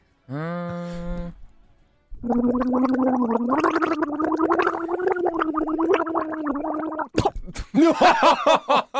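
Someone gargles while singing a song: a short gargled note is followed by a pause, then several seconds of warbling, bubbling melody, ending in choppy sputtering bursts.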